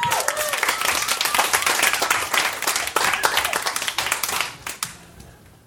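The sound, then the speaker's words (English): Audience applause at a comedy show as the first comic is welcomed: dense, continuous clapping that holds steady, then thins out and fades near the end. “I said a big round of applause.”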